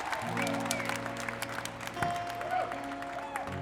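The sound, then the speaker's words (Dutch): Applause from a crowd at a feminist march on International Women's Day in Amsterdam, from Dam to Museumplein: steady, dense clapping that holds at a fairly even loudness for the whole stretch, with a small swell partway through. “Een warm applaus”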